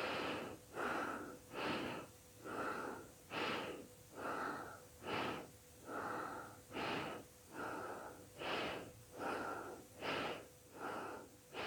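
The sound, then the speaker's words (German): Bhastrika bellows breathing: forceful, rhythmic breaths pumped in a steady series of many strong, evenly spaced bursts, each a rough, airy whoosh. No talking is heard. “Schließe dabei die Augen und atme diese Bastrika-Atmung.”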